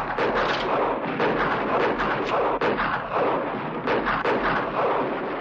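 Gunfire in the town-square shootout of the 1960 western The Magnificent Seven, with bandits firing as they advance and defenders shooting back. Many heavy, booming shots follow one another in uneven succession, with no voices.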